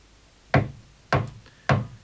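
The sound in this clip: Three distinct knocks on a door, evenly spaced about half a second apart, each a sharp thud standing alone against quiet.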